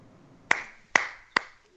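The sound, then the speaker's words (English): Four slow, crisp single hand claps ring out one at a time, evenly spaced roughly half a second apart, with near silence between them. “That gets an applause for me.”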